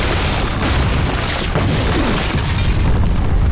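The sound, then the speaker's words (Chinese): A bomb explosion rolls out as a loud, dense, low rumbling roar with crackle, holding steady throughout without clear separate blasts. “坐下，炸弹，小心炸弹！”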